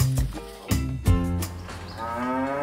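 Cows mooing in a barn: several deep, drawn-out moos overlap and follow one another, loud and resonant, with no talk.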